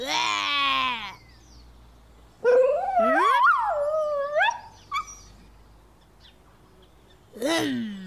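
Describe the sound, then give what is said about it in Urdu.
A cartoon dog whimpers and howls in a few bursts of high, wavering whines that slide up and down in pitch, separated by short quiet gaps. “نہیں ببلو بھائی نہیں, کتے کو نہیں چیرے, یہ آپ کے پیچھے لگ جائے گا. نہیں غلام رسول بھائی, یہ کتا میری نقل اتار رہا ہے”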